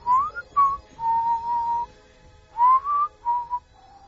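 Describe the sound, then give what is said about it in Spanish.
A voice imitates a whistle heard from behind: a series of clear, sustained mid-pitched whistled notes, some rising and some held level, in short phrases with gaps, alone and without speech. “un silbido detrás de ti.”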